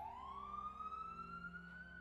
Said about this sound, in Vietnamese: Phía xa xa tiếng còi xe cấp cứu đang dần dần tới gần.